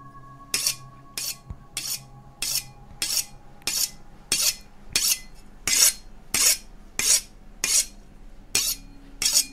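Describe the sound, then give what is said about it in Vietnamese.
A knife is sharpened on a whetstone in a dark room, heard as many evenly spaced, bright, hissing metallic scrapes. The strokes repeat at a steady rhythm, loud and alone, over a faint low hum. “Phi nghe được trong phòng là những âm thanh xoèn xoẹt như là có ai đang mài dao vang lên”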